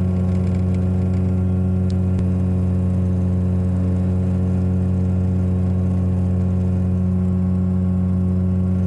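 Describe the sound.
A motor glider's engine drones steadily in flight, a constant, even hum with no change in pitch throughout and no voices.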